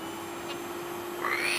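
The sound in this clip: A vacuum cleaner switched on in a kitchen and sucking gives a fairly faint, steady whirring hum. A higher whine rises over it near the end.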